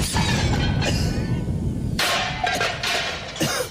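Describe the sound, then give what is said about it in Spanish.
A grenade explosion sound effect bursts out in a few loud, sharp crashing blasts with a shattering, debris-like edge, the hits landing over a loud rumbling bed that fades slightly toward the end. “¡Granada! ¡Al suelo, Presi!”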